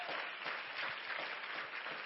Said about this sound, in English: Why don't we give God a hand clap of praise